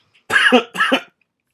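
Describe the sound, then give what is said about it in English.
A voice imitates a growling bear with two short, rough, throaty growls, each under half a second, separated by a brief pause and followed by silence. “Excuse me, my bear impersonation was a little bit pathetic, really, wasn't it? Grrr. No, an actual proper... rip your face off kind of bear.”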